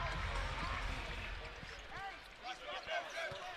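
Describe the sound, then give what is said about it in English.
A basketball dribbled by hand during a BYU vs. Cincinnati game: repeated hollow thumps on the court, bouncing under steady play-by-play commentary and a constant hum of arena noise. “Dallin Hall out front. Right hand dribble.”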